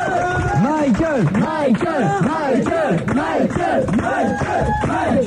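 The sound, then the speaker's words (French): Fans in a concert audience, gathered from across France and Europe, give a loud ovation for a singer. Many voices cheer and chant together with swooping, rising and falling pitch, unbroken throughout. “il y a toujours l'ovation, bien sûr, de ses fans qui sont venus nombreux de la France entière, de l'Europe.”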